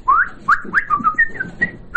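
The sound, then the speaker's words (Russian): A person whistles a quick, bird-like series of short clear notes. Some notes slide upward and others hold steady, in a lively, chirping rhythm with no talking. “Помню, даже старшего брата учил свистеть.”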